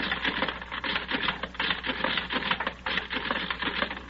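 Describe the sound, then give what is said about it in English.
Punch cards run through a personality-matching classifying machine, producing a rapid, continuous mechanical clatter, a dense, fairly faint rattling patter that keeps up without pause. “Then I take all the cards of the men I have and run them through the machine like this.”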